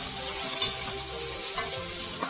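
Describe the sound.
Pork belly sizzles in a pan as its fat renders. A steady, even hiss of frying runs throughout, with a few small pops and crackles and no talk.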